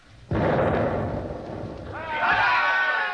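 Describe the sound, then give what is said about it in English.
A ship's cannon fires a single booming shot amidships during a sea battle, a sharp blast that trails into a long, heavy rumble; raised voices come in over the fading roar near the end. “Good shot, sir. If that's the way they do it in the artillery, I'm all for it.”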